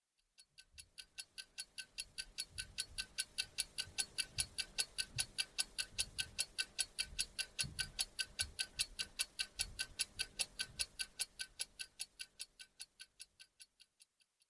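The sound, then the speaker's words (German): A ticking clock gives many crisp, evenly spaced ticks in a steady, regular rhythm. The ticks are faint overall, swelling slightly in the middle before trailing off. “Klingt nach einer Uhr, Peter. Warum hast du die mitgebracht?”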